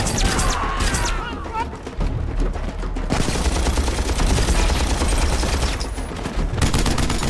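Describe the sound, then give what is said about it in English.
Rapid gunfire from two automatic pistols in an action scene: dense, fast shots crackle almost continuously, with brief lulls, keeping the sound loud and sharp throughout. “Zero fires with superhuman speed and accuracy, finding a human target with every round.”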